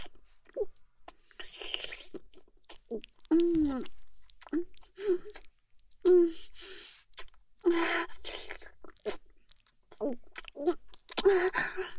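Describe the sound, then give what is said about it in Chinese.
Wet licking and chewing of a ham sausage comes in irregular bursts, with short voiced murmurs or gasps between the mouth noises. “就是在舔着吃火腿肠啊。单独吃太单调了，这样好像就等吃的那样重口。”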